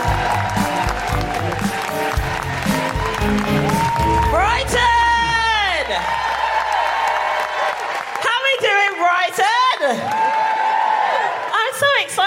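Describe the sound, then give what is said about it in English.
Live audience at a feminist comedy show applauding and whooping to welcome a comedian, with sustained loud clapping and several rising and falling whoops and shouts over it. “Put your hands together and make incredible Guilty Feminist welcoming woohooing noises for the incredible Sikisa!”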